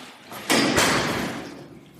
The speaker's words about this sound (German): Sie haben gerade einen Schlüssel in der Hand, Sie schließen ab.